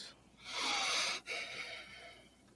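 Loud, heavy breathing: a long breathy rush swells and then cuts off sharply. A second breath follows and gradually trails away.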